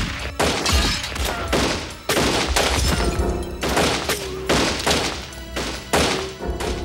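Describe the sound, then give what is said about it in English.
A burst of gunfire tears through a small store, an auto license tag agency, during a 1978 robbery, with rounds ricocheting: many loud, heavy shots crack in rapid, irregular succession, each with a booming tail that overlaps the next. “Twenty rounds ricocheted through the small store in a matter of seconds.”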